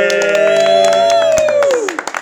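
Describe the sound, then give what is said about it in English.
Audience applause and cheering: loud, dense clapping with whoops over it, thinning into a few scattered claps at the very end. “That was the most applause that we've ever had. Easily the most applause.”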